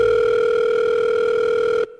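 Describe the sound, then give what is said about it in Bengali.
A telephone call tone hums alone for nearly two seconds. It is loud and steady at one unchanging pitch, then cuts off abruptly near the end. “পরদিন সৌরভ ওকে phone করল।”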